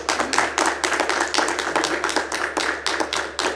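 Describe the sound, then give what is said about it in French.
Hands clapping in applause for a group of men: many quick, fairly even claps in a steady rhythm, fairly loud, with no talk. “Puis je vais vous applaudir, messieurs.”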